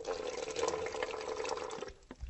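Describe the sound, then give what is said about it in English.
Faint, steady hiss and trickle of tap water running into a bottle, only a little filling its bottom; the flow cuts off shortly before the end, with no voices. “putting a little bit of water into the bottle from the tap”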